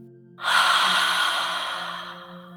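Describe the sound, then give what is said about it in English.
A long, airy exhale through the mouth during a guided breathing exercise of breathing in through the nose and out through the mouth. It starts suddenly and slowly fades, over faint steady tones. “and again in your nose, and out of your mouth,”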